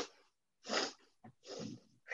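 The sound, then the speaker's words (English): Short, forceful breaths drawn in through the nose during a breath-of-joy exercise with the arms raised, a few quick staggered sniffing bursts separated by brief pauses, with no talking. “There's a breath of joy too, which I love. And you like, so you hold your hands up and you go”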